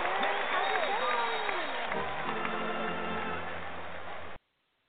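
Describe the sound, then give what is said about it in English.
Audience applause greeting a guest as she is welcomed onto a show, a dense, steady patter that holds for about four seconds beneath a speaking voice before cutting off abruptly. “I got applause. I love that.”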